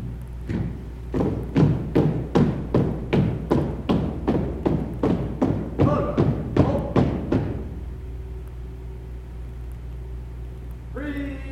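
Marching footsteps of a color guard at a school board meeting: many heavy, evenly spaced footfalls in a steady cadence over a low hum, stopping abruptly and leaving only the hum.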